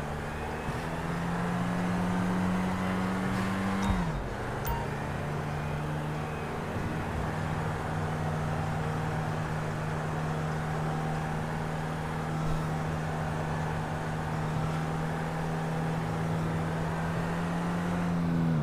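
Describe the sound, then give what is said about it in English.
A car engine drones steadily while driving in GTA 5 on Xbox One, a continuous loud hum whose pitch dips once near the start and then holds level throughout. “I'm gonna drive North Carolina style. Hold on. Going through. I'm gonna drive a cockpit just for realism.”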